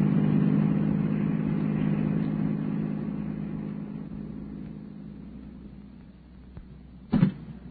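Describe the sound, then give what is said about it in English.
A car engine rumbles with a steady low drone that slowly fades over several seconds, followed by a short sharp knock near the end, with no voices. “Step on the gas pedal. We may not be too late.”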